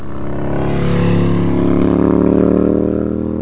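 Motorcycles racing at an island road-race event produce a loud, sustained engine roar that swells over the first second, then holds a steady, buzzing drone to the end.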